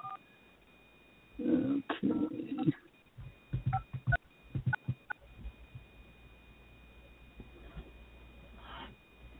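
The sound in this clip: Telephone dialing tones sound as a guest dials into a call: a short series of brief, clipped beeps comes after a louder stretch of low rumbling noise, with a faint steady hum underneath.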